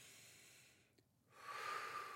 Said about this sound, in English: All right, here we go. Deep breath.